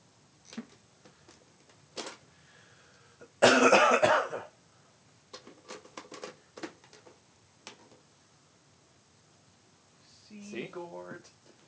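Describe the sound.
A single wet cough into an old video game cartridge bursts out loud and brief among faint clicks and handling noises, with a voice briefly at the end.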